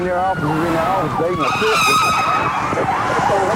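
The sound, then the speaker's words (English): A police car racing over slick, wet pavement in pursuit of a light blue Chevrolet Caprice, with a loud rushing engine and road roar, tires hissing, and a siren wailing in rising and falling sweeps throughout. “As he races over slick, wet pavement in hot pursuit, deputy is just trying to stay close”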